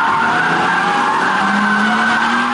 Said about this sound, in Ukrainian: Зазвичай дрифтом спортсмени займаються на спеціальних майданчиках, а цього разу на території оптової бази.